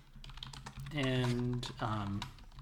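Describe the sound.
Fingers type on a computer keyboard in a dense run of quick clicks. A sustained, voiced tonal sound swells over the middle part.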